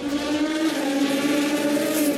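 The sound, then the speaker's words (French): Twin-turbo V8 engine of a Ferrari 488 GTE race car rated at 500 horsepower, holding a loud, steady, buzzing drone with no clear rise or fall in pitch. “avec une jolie musique en fond, celle d'un V8 biturbo de 500 chevaux. Venez à bord de cette Ferrari 488 GTE.”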